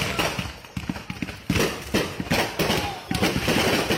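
A tent full of Super Bottle Rocket 1200 fireworks goes off in a dense, continuous barrage of sharp crackling pops and bursts, loud and busy throughout.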